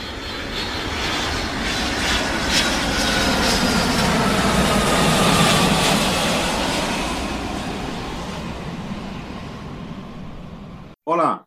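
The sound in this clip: Airport terminal ambience dominated by a steady, loud aircraft engine roar that swells through the middle, eases toward the end, breaks off briefly and ends with a short, sharp burst.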